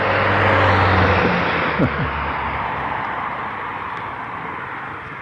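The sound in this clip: A passing car's engine and road noise fill a quiet morning by a back gate, a broad steady rush that swells briefly, then slowly eases off over a few seconds.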